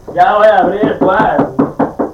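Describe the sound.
A door is pounded with a few firm, hard knocks, the raps coming after and partly under people talking.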